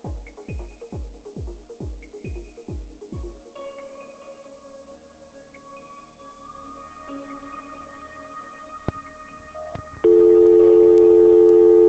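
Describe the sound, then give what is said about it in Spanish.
Telephone dialing tones as an outgoing call is placed to someone in Texas: a quick run of short, evenly spaced tones, then a stretch of quieter mixed line tones, ending in a loud, steady held tone. “voy a intentar poner a Osvaldo desde Texas en la línea, pero va a sonar un cosito, así que no vayas a colgar”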